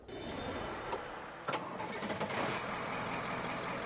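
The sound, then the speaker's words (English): A truck engine runs on a mobile farmers market driven out of Richmond, Virginia, toward the countryside. It makes a continuous low mechanical drone and rumble, steady and fairly faint, with no voices. “Early in the morning, Mark Lilly drives his farmer's market on wheels from Richmond, Virginia, to the countryside.”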